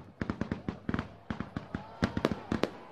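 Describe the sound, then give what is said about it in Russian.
Fireworks launched in a neighbouring courtyard on a winter night crackle faintly in many quick, irregular pops that cluster in rapid volleys throughout. “Где-то в соседнем дворе запускали салют.”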